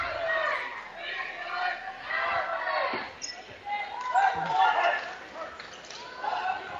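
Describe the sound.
A basketball is dribbled on the court during a boys' basketball game: a few dull bounce thuds under continuous play-by-play commentary and crowd chatter.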